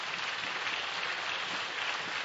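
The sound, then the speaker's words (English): An audience claps during a church worship service, a steady, dense patter of hands that stays fairly faint and even throughout, with no voices heard. “Come on, clap it if you want.”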